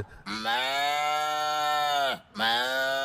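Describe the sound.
A man imitates a farm animal with a long, drawn-out, moo-like call that is rich in harmonics and holds a steady pitch before dipping at the end, then starts a second call.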